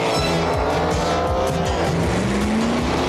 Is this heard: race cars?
yes